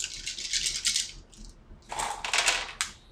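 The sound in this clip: Six dice rolled in a tabletop role-playing game: two bursts of bright, rattling clatter separated by a short pause, ending in a few small clicks. The clatter is faint and no one speaks.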